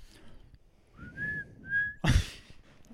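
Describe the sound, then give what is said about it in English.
A person whistles a TV show theme tune: two short, steady, clear whistled notes, then a loud thump. No one speaks. “Stop whistling and just tell us the show.”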